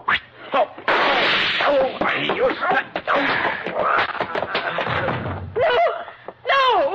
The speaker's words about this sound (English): you think you can shoot as straight as I can cast a fishing plug? Huh? Like this?